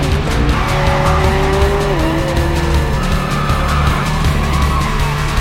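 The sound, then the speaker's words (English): Cars speed through an underpass with a loud, constant engine roar and drawn-out tyre squeal, the rushing noise holding steady throughout. “The cars continue to speed under an underpass.”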